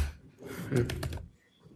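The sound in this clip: A few quick keystrokes on a computer keyboard, typing a password at a root shell prompt, soft clicks bunched together in the middle of a short stretch.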